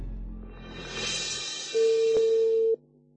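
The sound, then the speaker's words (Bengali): A steady telephone line tone sounds as a call connects, a single loud even note lasting about a second, coming after a stretch of noisy hiss and cutting off abruptly. “Marufa নাম ছিল, মারুফার সাথে ফোনে connect করবার চেষ্টা করছি। ফোনে connection হয়ে গিয়েছে”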